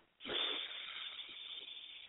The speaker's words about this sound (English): We're going to inhale through our nose and exhale through our mouths. And then after we get all of the air out of our mouth, we're going to go, huh. So it kind of sounds like this.